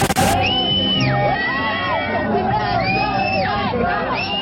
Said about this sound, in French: Ce ne sont pas des cris d'émeute, ce sont des cris d'extase. Pour ces quelques centaines de fans, le jour de gloire est arrivé